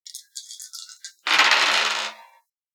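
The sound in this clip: Dice rattle and roll during a tabletop role-playing game: a few short, sharp clicks first, then a dense clattering burst about a second long that fades out, with no voices.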